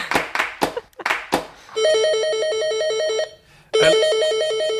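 Electronic telephone ringtone going unanswered, a warbling, alternating beep pattern that sounds in two sustained bursts separated by a brief silence.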